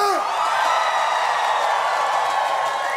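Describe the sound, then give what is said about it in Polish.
Crowd cheering and making noise at a live concert by a small stage, a loud, steady wash of voices, whoops and yells that holds without a break from start to finish. “Zróbcie hałas dla samych siebie!”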